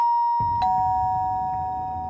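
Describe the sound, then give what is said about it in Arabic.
A doorbell rings, a bright chime struck a few times in quick succession, its clear steady tone ringing on and slowly fading. “في الوقت ده بدأ جرس الباب يرن.”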